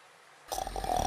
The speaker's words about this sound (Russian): Дед храпел.